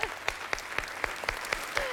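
Audience applause made of rhythmic clapping: sharp claps in a steady, even beat of about four per second, fairly loud and uniform, with no talk over it.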